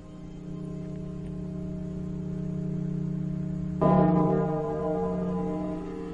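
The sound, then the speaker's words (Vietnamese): Many bells ring together with an eerie tone: a steady, sustained drone of layered ringing, joined about two-thirds through by a louder, brighter bell strike that blooms and then slowly fades back into the hum. “Trạng thái nhỏ máu như vậy làm cho tất cả bên bốn phía vang lên những tiếng chuông. Những tiếng chuông cộng hưởng vào với nhau tạo thành tiếng chuông to, nghe vô cùng ma mị.”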